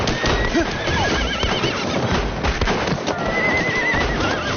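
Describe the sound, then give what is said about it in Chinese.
Horses neigh in shrill, quavering whinnies, several calls overlapping, with hooves clip-clopping beneath them throughout. “抓紧打扫战场，不要留下任何战斗的痕迹。 虽然没能和主力部队一起打黎平，但是让我们在外围捡了个大便宜。 是啊，这几匹马儿真是不错。”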